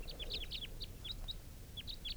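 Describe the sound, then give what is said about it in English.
A male bird calls in a quick series of short, high, thin chirps, some clustered in rapid pairs, fairly faint over a low background hiss. “I have no idea, no way of knowing for sure whether this was the same bird calling before.”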